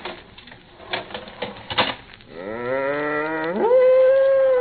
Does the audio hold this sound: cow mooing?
yes